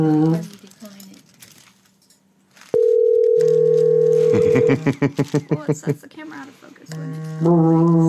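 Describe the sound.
Electronic tones from a toy telephone ringing: a steady, held tone gives way to a quick run of many pulsed beeps, loud against quieter talk heard before and after.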